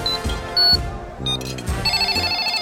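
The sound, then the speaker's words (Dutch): Telephone ringing while calling someone: a few short electronic tones, then a sustained, steady repeating ring tone, loud. “Wacht, ik zal hem eens proberen te bellen.”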